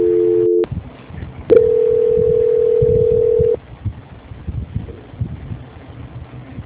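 Telephone transfer tone as a call is passed to a quality-control department: a short steady electronic tone, a pause of line hiss, then a longer flat tone of about two seconds, followed by low line noise.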